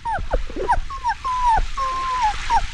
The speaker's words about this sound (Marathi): काय आहे ग बाहेर? मावशी, कुत्र्याचं पिल्लू.